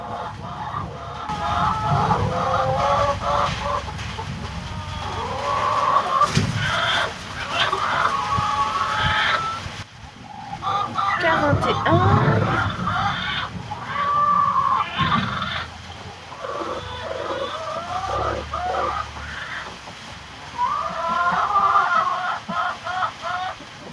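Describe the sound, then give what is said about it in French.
Hens cluck in a henhouse, a steady stream of many overlapping clucks and short calls that dips briefly around the middle before carrying on at the same level. “on a réaménagé un petit peu le poulailler”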